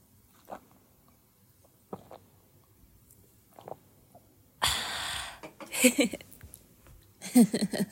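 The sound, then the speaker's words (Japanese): Sips of an alcoholic drink: a few soft mouth clicks, then several short, noisy slurping bursts close together, moderately loud against quiet surroundings. “はい、じゃあちょっと一口どんどん潤したいと思います。ぜひ聞いてる方も一緒に飲んでてくれたら嬉しいかな。”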